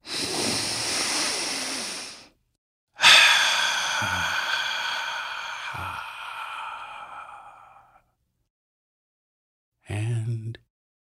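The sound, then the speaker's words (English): Someone takes a deep breath: a long airy breath, then a drawn-out voiced sigh that slowly fades, and after a short silence a brief final breath. “And now, if you are ready, let's take a deep breath.”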